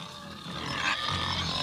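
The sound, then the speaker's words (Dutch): Pigs grunting and squealing on a farm; the animals are Bonte Bentheimers, a robust pig breed. The sound is a rough, noisy, continuous texture that stays faint and swells slightly midway. “Bonte Bentheimers zijn het volgens mij, maar dat zou je voor de zekerheid aan Kerjo moeten vragen. Dat zijn redelijk robuuste varken, zeg maar.”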